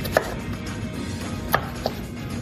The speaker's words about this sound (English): Okay, let's cut up some zucchini and we'll try it again. Okay. I'll give you some strips to cut, okay?